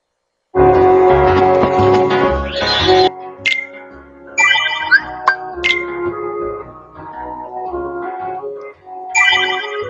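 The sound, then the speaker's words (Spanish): Bright video game interface notification chimes confirming an achievement: a sustained, rich tonal jingle is followed by several shorter sparkling chime phrases, loud and with no voices. “Son simplemente sonidos de interfaz, de notificación.”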